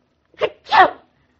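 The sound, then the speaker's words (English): A single sneeze in two parts: a short, sharp first burst is followed at once by a louder, fuller one. It is heard alone in silence. “I sneezed. How clever of you. I sneezed again.”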